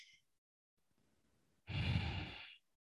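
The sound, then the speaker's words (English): A slow, deep human breath: a faint, drawn-out inhale, then a loud, breathy exhale like a long sigh lasting about a second, with no talking. “Breathe in. I let my lungs fill up with air and then I slowly breathe it out.”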